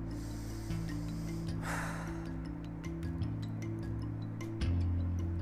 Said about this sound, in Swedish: Andetag.